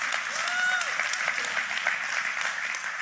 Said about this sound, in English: Can we just even put our hands together and say welcome?